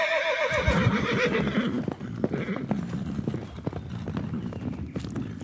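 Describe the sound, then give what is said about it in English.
Horses of a king's army ride away: many steady clip-clopping hoofbeats, with a sharp whinny near the start, carrying on throughout. “And with that, the king and his army rode away.”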